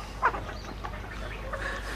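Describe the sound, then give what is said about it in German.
Small hens clucking, a few short, throaty clucks with one sharper, louder cluck near the start followed by softer, scattered ones. “Pengis Vater sagt: Hübsche kleine Hühner.”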